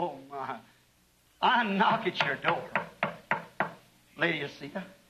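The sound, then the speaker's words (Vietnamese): Knocking on a door: a quick series of several sharp, evenly spaced raps, with speaking voices before and after the knocks. “ta gõ cửa ngươi”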